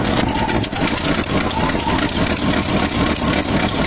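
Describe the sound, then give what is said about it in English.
The engine of a junky old car runs as a dense, rough rumbling roar with an uneven, rattly texture. It stays loud and steady throughout, with no talk over it. “customers who arrive in junky cars that sound like this.”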